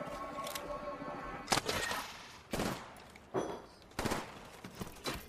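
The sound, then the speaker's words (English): Gunfire in the video game Apex Legends Season 20, several sharp bursts of rapid shots spaced irregularly over a low steady background. “Somebody behind us. Going there. I'm under fire.”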